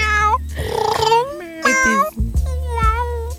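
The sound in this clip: A female cat meowing loudly: three long, wavering meows with rich overtones follow one another in close succession, each rising and then sagging in pitch.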